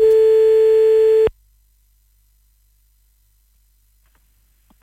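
Telephone busy tone after a call is cut off: one loud, steady, buzzing tone that stops abruptly after about a second, followed by near silence with a couple of faint clicks at the end.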